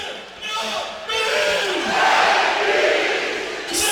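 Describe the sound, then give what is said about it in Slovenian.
Celje football fans chant a player's name after a goal at a European match: a loud, massed roar of voices that swells after a brief lull and stays strong to the end. “Slišite v ozadju, kako so vzklikali zdaj to ime navijači Celja, ime Benjamina Verbiča, Vojničana, ki se je po več kot desetletju vrnil v klub in danes dosegel svoj”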